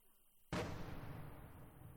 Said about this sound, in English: The boom of outgoing fire, a pro-Russian artillery piece, can't be far from the village.